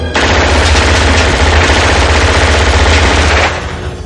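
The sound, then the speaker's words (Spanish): Loud automatic gunfire in an action film, fired at a door lock: one unbroken rapid burst lasting about three seconds, then stopping abruptly, with no voices. “Cambia el cargador y dispara sobre la cerradura de una puerta.”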